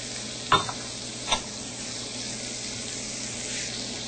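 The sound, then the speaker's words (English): Celery, carrot and other vegetables sautéing in a pan give a steady, even sizzle. Two brief stirring clicks come near the start. “And you'll want to saute all this together until it starts to get soft for about 5 minutes.”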